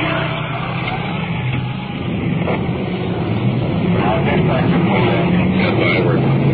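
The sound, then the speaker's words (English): A big fire department pumper truck rolls past with a loud, steady engine roar that holds throughout, while a man talks over it. “I can hear their sirens, so we'll just stand by. We've pulled over the curb to allow a big pumper truck to roll past us.”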